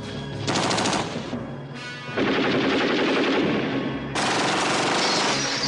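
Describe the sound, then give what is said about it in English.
Automatic gunfire rakes a hut in a combat scene. Several long, loud, rapid-fire bursts follow one another with only brief gaps between them. “Opelka fires on the tower and the guard falls to the ground below. Mazzilli fires on Yin's hut.”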